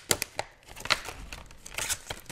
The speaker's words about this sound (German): Das ist hier so eine Blisterpackung, so eine Plastikpackung mit auch so einer Platine drin und ganz vielen solchen Infrarotleuchtdioden. Ich reiß die Packung mal auf.